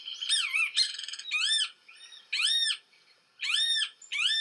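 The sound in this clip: Song of a large-billed tropical bird of humid scrub, swamp and forest canopy: bright, arching, slightly nasal calls repeated in short bursts, separated by brief pauses, with no voices present.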